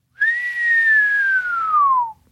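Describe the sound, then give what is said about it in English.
A person whistles one long whistle of about two seconds, clear and alone. It rises briefly at the start, then glides slowly and steadily downward in pitch before stopping. “Dobro said after a long whistle.”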